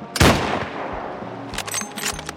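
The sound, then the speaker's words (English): A rifle shot cracks out loudly near the start and its echo decays quickly. Fainter sharp snaps and rustling follow. “Another shot rang, stopping the action dead.”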